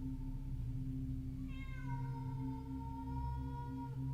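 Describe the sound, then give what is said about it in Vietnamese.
Cats yowl eerily among graveyard tombs, like cats in heat. A long, wavering, high-pitched yowl with rich overtones begins partway through and holds to the end over a steady low hum. No one speaks. “Những tiếng kêu ma quái vang lên, cứ như là lúc lũ mèo đang trong thời kỳ động đực.”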